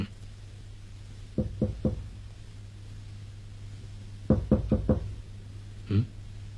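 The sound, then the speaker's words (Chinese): Knuckles knock on a door: a group of three raps, a pause, then a quicker run of four, and one final single knock, over a steady low hum. “敲门。”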